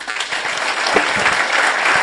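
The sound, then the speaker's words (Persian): An audience applauds in dense, steady clapping, a loud crackling wash of many hands that holds evenly throughout. “آقای مهندس تشویق کنید”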